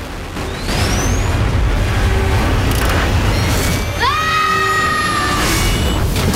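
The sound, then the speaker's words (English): Jets fire out of a robot's back as two hatches open: a loud, steady rushing roar fills the whole clip, and a sharp whistling sweep cuts in partway through. “2 hatches open and jets fire out of its back.”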